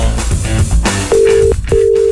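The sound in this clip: Two steady mid-pitched beeps of a telephone line tone after a call drops. They are loud and evenly spaced and follow a stretch of dense, mixed sound.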